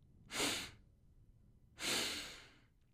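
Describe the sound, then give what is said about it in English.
Two short breaths drawn in through the nose, soft airy sniffs about one and a half seconds apart, faint and alone with no talk. “take two short breaths in through the nose.”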